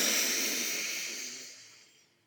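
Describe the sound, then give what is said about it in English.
A deep breath exhaled through an open mouth during a guided breathing exercise: a single long, airy rush of breath that starts strong and steadily fades away over about two seconds, alone without talk. “Deep breath in. Open mouth, exhale.”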